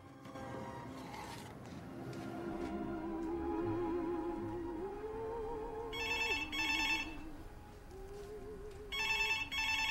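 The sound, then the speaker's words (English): A telephone bell ringing at home, heard as two bursts of bright trilling rings over a soft melodic music bed; the second ring is cut off at the end. “He ignores the phone.”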